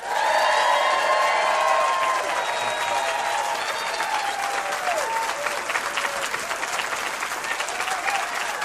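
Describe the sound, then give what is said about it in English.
Live studio audience at Sonoma State University applauding and cheering: loud, sustained, dense clapping with high whoops and cheers mixed in, easing slightly toward the end. “We are pleased to be here and pleased to have this raucous but enthusiastic audience.”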